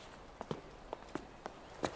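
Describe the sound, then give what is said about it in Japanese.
Quick, faint footsteps hurry up a slope in a brisk, slightly uneven rhythm of several light steps over a low background hush. “坂、急いで登っちゃおう”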